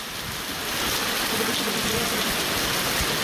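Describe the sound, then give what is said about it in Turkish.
Walnut-sized hail pelts down in the Değirmenköy neighborhood of Silivri. It makes a dense, loud, continuous patter and hiss that stays steady throughout. “Dolu ciddi anlamda etkili oldu.”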